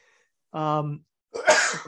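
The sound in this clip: A single sneeze: a short voiced intake rising into a sharp, loud, breathy burst that fades over about half a second.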